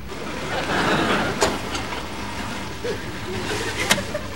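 A car is driven slowly, giving a steady, low, broad rumble of engine and road noise throughout, with a couple of faint clicks on top.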